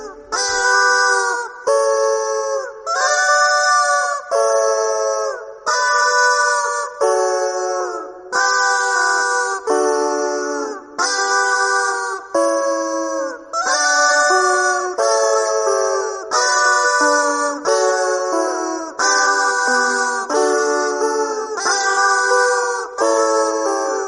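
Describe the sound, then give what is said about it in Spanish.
A rubber chicken dog toy is squeezed to play classical music, giving a long series of loud, nasal squawking notes that step up and down in pitch as a melody, each note separated by short gaps. “Que es un pollo así de goma para el perro. Entonces hay dos orientales que hacen versiones de música clásica con este pollo. Lo tocan de tal forma que da la nota exacta.”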